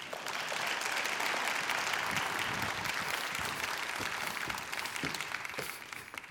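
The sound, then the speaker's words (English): Audience at a church gathering applauding to welcome a guest speaker: sustained, full clapping holds steady for several seconds, then thins out slightly toward the end. “So let's give it up with a warm welcome to Dr.”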